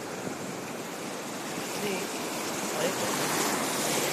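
Beach waves wash as a steady, continuous rush of surf. The sound stays fairly even throughout and swells slightly toward the end.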